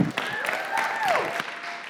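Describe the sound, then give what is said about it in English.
Audience applause at a Chi Alpha gathering: a dense, steady wash of clapping with some cheering, and no clear speech. “So let's give it up for Lydia.”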